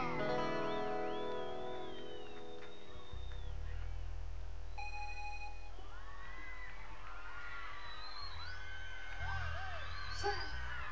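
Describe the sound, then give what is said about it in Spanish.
Women in a live concert crowd in Salta scream and whoop: many shrill, overlapping high cries swell and grow louder after music near the start fades out. “Y el grito de las chicas solteras. Oh. Y el grito de las chicas de River.”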